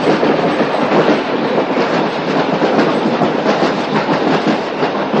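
Steam locomotive hauling a train through a snowy landscape by a river at night: a loud, continuous rumbling roar with a faint clickety-clack running steadily underneath, and no voices.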